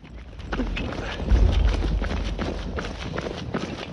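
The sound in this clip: Running footsteps of people moving through a housing estate: quick, steady rhythmic thuds that repeat many times at a fairly even pace over a low rumble, with no voices.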